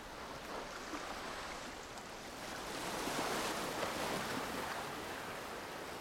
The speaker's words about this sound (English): Just below them, waves break on the shore.